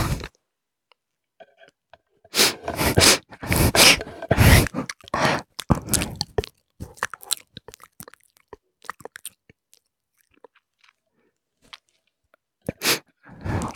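Someone chewing and eating sweet cake: a few bursts of moist mouth sounds and crunches separated by silences, thinning out to sparse, faint clicks.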